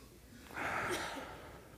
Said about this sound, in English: Everybody, take a breath on this side. Take a deep breath. Take a breath on this side.